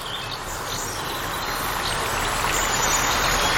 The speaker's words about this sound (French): Écoute, imagine-toi marcher le long d'un cours d'eau.